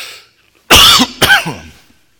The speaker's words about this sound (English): I got a tickle in my throat.